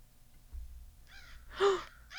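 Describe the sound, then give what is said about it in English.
Crows caw in a played recording, a few harsh, rasping calls in short bursts following a low rumble, moderately loud with quiet gaps between. “Can we play some crow noises?”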